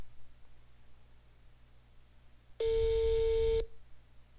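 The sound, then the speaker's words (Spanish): A phone line rings after a call is dialed: one steady, buzzy ring tone lasting about a second stands out loudly against a faint background hiss. “ya está marcando, amigos. Esperemos que conteste.”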